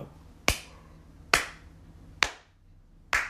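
Four crisp hand claps from a hyper-pop song, sharp and evenly spaced, each with a short decaying tail and no other instruments around them.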